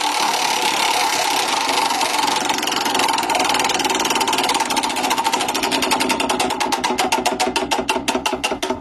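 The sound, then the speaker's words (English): A prize wheel spins, giving a fast stream of ticking clicks. The clicks become clearer and more widely spaced toward the end as the wheel slows. “It's the Wheel of Surprise.”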